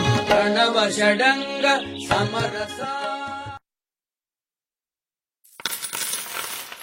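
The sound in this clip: Coins drop and clink together, a bright metallic jingle that runs for a few seconds, then cuts to silence before a softer scattered rattling of coins returns.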